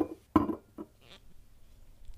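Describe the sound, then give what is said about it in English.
A bottle of olive oil is opened in a kitchen: a few faint glassy clinks and knocks, then a short soft rustle. “And then I'm going to open up the olive oil, which you just heard.”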